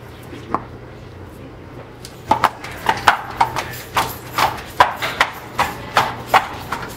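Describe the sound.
Hooves clip-clop on the ground as a horse is jogged off after a flexion test for lameness. One isolated hoof beat is followed by many sharp, evenly spaced beats in a regular trotting rhythm over a low, faint hum.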